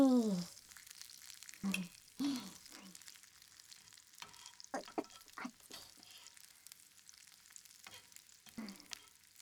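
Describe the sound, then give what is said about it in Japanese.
Ingredients stirred and fried in a pan: a faint, steady sizzle under repeated scraping and clinking strokes of stirring throughout. No talk. “それ、食材くんたちを混ざれ混ざれ。”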